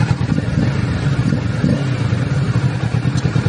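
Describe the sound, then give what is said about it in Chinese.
A twin-cylinder motorcycle engine runs during an early-morning test ride, a steady, loud, low rumble with a rough, clattering texture and no clear rise or fall. “双缸的声音 OK， 我们选择在凌晨试车”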